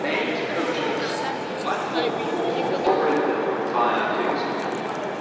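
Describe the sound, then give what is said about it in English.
Busy railway station platform ambience before boarding a train: a steady wash of crowd bustle with footsteps and indistinct murmuring voices, continuous and fairly even in level throughout. “Right, just getting ready to get on the train, the 8:27 to Strawberry Hill.”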